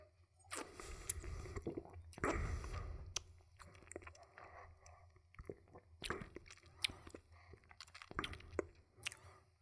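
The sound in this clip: Faint wet mouth sounds from tasting a bitter anise-like liqueur: soft squishing, smacking and chewing-like noises in many irregular bursts, with a denser stretch early on. It is quiet, with no talk.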